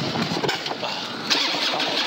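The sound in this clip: A car engine fitted with a bigger cam starts and idles, giving a loud, rough, continuous mechanical roar with a sharper surge partway through the short burst. No voices are heard over it.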